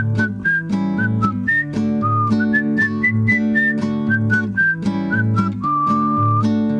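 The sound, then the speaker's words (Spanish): Someone whistles a children's song tune, clear bright notes stepping through a melody over steady instrumental accompaniment. “Ahora vamos a silbar.”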